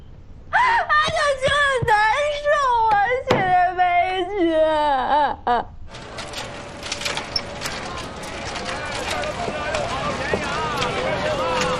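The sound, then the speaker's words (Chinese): A person cries in wavering, wailing sobs that rise and fall in pitch for several seconds, then give way to a steady, noisy rustling background. “别哭了啊！ 你再哭，你就把我们给哭毛了呀！”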